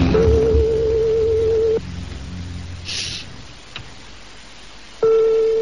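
A telephone rings on the line while a call is placed: a long, steady mid-pitched tone, a pause of a few seconds, then the same tone starts again.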